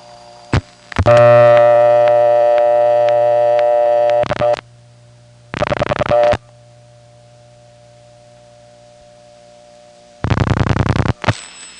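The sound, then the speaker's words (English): A Bell System N3 analog carrier trunk comes on during telephone dialing. A long buzzy harmonic tone sounds first, then two shorter loud tone bursts follow over a steady low line hum. “the trunks from here to there are N3 carrier, which is a Bell System 2600 controlled carrier system, analog of course, and you'll hear the N3 carrier come on just as soon as we dial the third digit here.”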